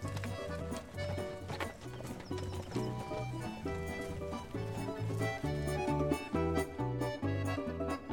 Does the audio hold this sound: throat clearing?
no